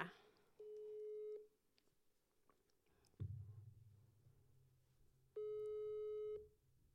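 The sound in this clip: Telephone ringback tone heard while placing a call to an adult: two faint, steady electronic rings, each about a second long, separated by a pause of several seconds with a low rumble in between.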